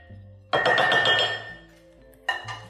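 A spoon clinks against a bowl as food just added to hot water is given a quick stir. A burst of rapid clinks and scrapes fades out, then a shorter clinking burst comes near the end.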